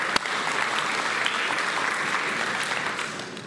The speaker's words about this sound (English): Palapakan natin si Lord, mga kaibigan.